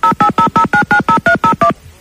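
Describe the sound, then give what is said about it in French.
Touch-tone telephone keypad dialing a number in Corsica: ten evenly spaced, loud, two-note beeps in rapid succession, followed by quiet. “Attention, on y va, on appelle en Corse, on en a parlé à Jojo.”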